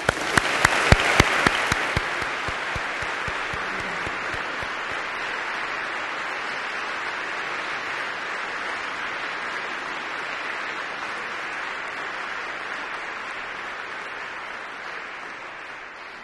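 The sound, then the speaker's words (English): Audience applause welcoming guest speakers at an evening talk on Christianity. It opens with a few sharp separate claps that quickly swell into dense, sustained clapping, easing off gradually toward the end. “Let's give a warm welcome to our guest speakers this evening.”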